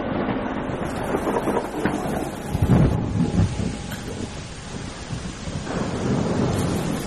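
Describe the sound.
Heavy rain pours outside as a dense, steady hiss that fills the whole clip, with low rumbling swells rising briefly near the middle.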